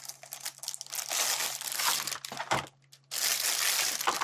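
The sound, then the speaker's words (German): Plastic packaging crinkles as it is handled and unwrapped, with dense, continuous rustling bursts, a short quiet gap near the end, then more crackling. No one speaks. “Dieses Knistern, diese Störgeräusche.”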